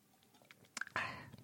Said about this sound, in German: Muss was trinken, einen Moment.